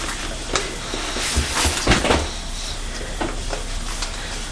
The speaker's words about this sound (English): My mummy's having to bang the bottle of baby lotion because we're running out, aren't we?